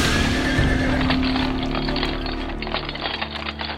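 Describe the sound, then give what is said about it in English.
Horse-drawn carriage on a bumpy ride, a loud, dense and continuous rumble of rolling wheels with rattling and scattered hoof clops throughout. “I say, this carriage ride is awfully bumpy, isn't it?”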